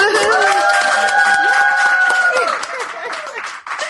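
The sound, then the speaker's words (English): A studio audience of trainee vegan lifestyle coaches whoops and hollers, a dense, loud blend of sustained high cries and shouts that holds steady before thinning out and dropping in level toward the end. “So they're all here today being our audience. Everybody whoop and holler.”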